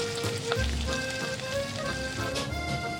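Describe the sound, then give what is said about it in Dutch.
A sizzling frying pan used as a transition sound: a steady, dense hiss and crackle that runs without a break for about three seconds. “Sizzling pan. Als transition.”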